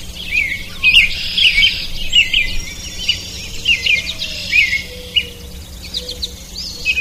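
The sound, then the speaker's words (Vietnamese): Birds chirp in a garden at dawn. Repeated bright, high chirps and twitters come in quick bursts over a steady low background hum, with no voices. “Thế mà lũ chim dám về vườn làm dấy động sự yên tĩnh của ban mai.”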